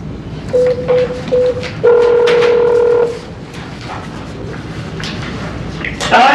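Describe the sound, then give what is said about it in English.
Telephone keypad tones dial an extension: three short beeps, then a longer, stacked tone, followed by low background hiss. “If you know your party's 5-digit extension, you may dial it now.”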